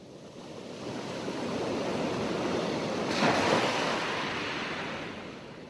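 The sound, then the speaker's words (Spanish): Sea waves wash in a broad, steady roar of surf that swells slightly near the middle and then eases. The sound is continuous, with no voices. “Creo que veo el mar. Mira, fíjate bien.”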